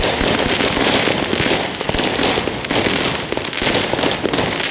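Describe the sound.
Fireworks and firecrackers exploding on a street on New Year's Eve: a loud, dense, continuous barrage of crackling bursts and sharp bangs with no pause, alone without voices.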